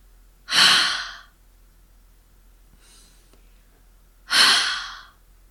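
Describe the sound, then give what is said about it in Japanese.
Two forceful exhales of warm breath pushed onto an open palm during a breathing exercise, each a loud, breathy whoosh lasting under a second, separated by a few seconds of near silence. “冬の寒い日に、手のひらにあったかい息をかけると思って、思いっきり息を吐いてみましょう。こんな感じです。”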